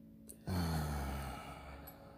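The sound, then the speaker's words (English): A long exhale releases a held deep breath during a guided meditation: a sudden breathy sigh that starts strongly and then fades slowly over about a second and a half. “take a deep breath. Hold it. Okay, release.”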